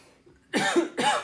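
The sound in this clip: Two short, dry coughs from a person with a dry throat come one right after the other. Both are loud against near silence.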